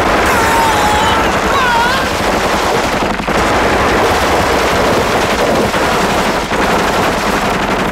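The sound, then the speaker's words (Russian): Loud automatic gunfire from Kalashnikov rifles rattles in dense, rapid bursts as shots are finished off at a Mercedes from a white minibus in a film scene, continuing without pause to the end. “Сделав контрольные выстрелы, запрыгивает обратно.”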